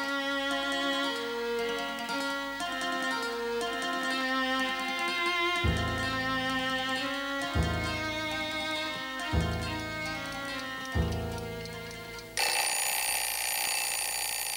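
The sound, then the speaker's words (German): A bell alarm clock bursts into harsh, continuous ringing at the end, after a sustained tonal drone and a few evenly spaced, resonant chime strikes. “Punkt 11:30 riss mich der Wecker aus dem Schlaf.”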